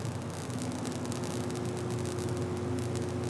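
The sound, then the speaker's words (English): Steady electrical buzz from transmission lines outside a power plant, a continuous hiss layered over low humming tones, with faint crackling flickers scattered throughout and no voices. “So that is the sound of electricity. Ooh. Yeah, on some transmission lines and stuff outside this power plant I just visited to check out winterization.”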